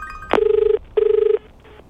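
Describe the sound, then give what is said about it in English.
A telephone rings after a call is dialed: two loud, fast-trilling rings separated by a short gap, then a much fainter third ring begins. “All right, let's press dial.”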